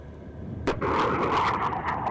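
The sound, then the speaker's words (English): A TOW wire-guided anti-tank missile fires from its launch tube during live-fire training by an anti-tank infantry company at a military training base in Iraq: a sudden sharp blast breaks into a loud, sustained roaring rush of the motor. “They fire the tube-launched, optically-tracked, wire-guided missile, or TOW missile.”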